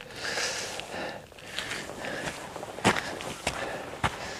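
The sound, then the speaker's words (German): Footsteps sink into a muddy bog at night as shoes press deep into soft mud. A few heavy, soft thuds follow a stretch of quieter shuffling. “Oh, jetzt bin ich einmal 20 cm tief eingesackt in meinen Schuhen.”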